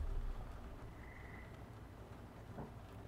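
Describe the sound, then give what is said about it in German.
Frogs croak and chatter in a dense, continuous chorus that stays faint and fairly steady throughout, with no voices. “Die Geräusche hört ihr auch klar und auch da ist wieder nicht klar zu definieren, also diese schnatternden Froschgeräusche”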